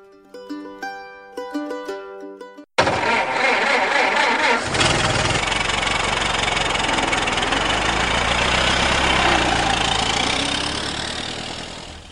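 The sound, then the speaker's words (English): After a short musical passage, a car engine starts up and settles into a steady, loud running drone while driving along. “Here we are driving along to our latest game night”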